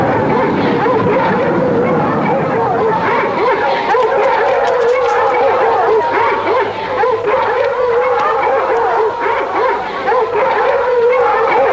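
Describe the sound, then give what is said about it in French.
A pack of hunting hounds in full cry: dense, overlapping barks, yelps and howls, loud and continuous throughout without a pause. “Je lâcherai les chiens à cette trousse. Mais ils risquent de l'écorcher. La meute! Lâchez toute la meute!”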